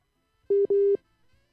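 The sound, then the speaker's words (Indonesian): A telephone line rings while a listener is being called: a steady, mid-pitched electronic tone sounds in two short bursts separated by a brief gap, with nothing else around it. “Kita coba kembali memanggil Ibu Yeni ini.”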